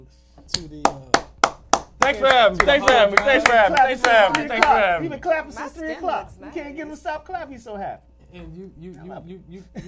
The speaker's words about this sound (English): You've been clapping since 3 o'clock. You can't get him to stop clapping.